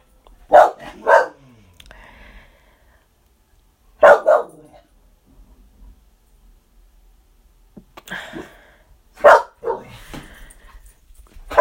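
A dog barking in short bursts, mostly in pairs, separated by quiet gaps, with several loud barks spread across the stretch.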